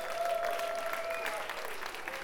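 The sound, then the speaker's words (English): An appreciative crowd at the Mill House applauds itself: faint but continuous clapping that holds steady throughout the short stretch. “So you guys really give yourself a hand.”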